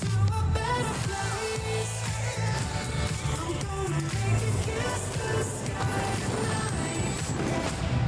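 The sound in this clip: The closing music of a Trolls animated movie trailer: dense, full-band pop music that plays loud and sustained at a steady level throughout, with no talk over it.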